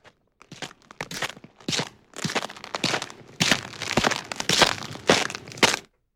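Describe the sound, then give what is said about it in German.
Footsteps approaching in snow: many crunching, crackling steps in an uneven walking rhythm, moderately loud and alone, with short gaps between bursts. “Schritte.”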